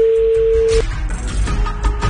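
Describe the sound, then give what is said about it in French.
A phone call to someone in Belgium rings out as a single steady, mid-pitched ringback tone. The tone cuts off after under a second, leaving a noisy, rustling background. “Ça va sonner quelque part en Belgique.”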